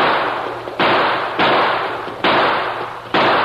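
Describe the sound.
Gunshots in an old-time western drama shootout: a rapid series of loud blasts at fairly even intervals, each hitting sharply and then decaying into a long, noisy tail, with no talk.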